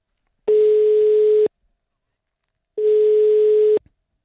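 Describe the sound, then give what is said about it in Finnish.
A telephone busy signal while placing a call: two long, steady single-pitched beeps of equal length, separated by about a second of silence. “Mä soitan nyt Elinalle.”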